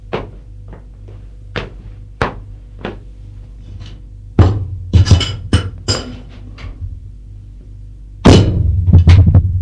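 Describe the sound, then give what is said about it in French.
A bottle of cognac and two glasses clink and knock as drinks are poured and served at a bar. Many sharp clinks and dull thunks come irregularly, with denser clusters of handling sounds midway and near the end. “Une bouteille et deux verres. Retourné vers elle, il fait le service.”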